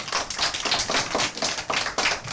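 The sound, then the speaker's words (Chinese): A classroom of students claps together in quick, regular bursts, producing a brief rhythmic run of sharp hand slaps that pulse evenly at a fairly loud level, with no talking. “就是这些，很好，掌声。”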